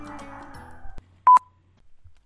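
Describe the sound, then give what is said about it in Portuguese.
A phone ringing with an incoming call: one short, loud electronic ring tone cuts in after a stretch of other sound fades out, and a second ring is just starting at the end. “Ai, senhor, meu marido está me ligando, peraí.”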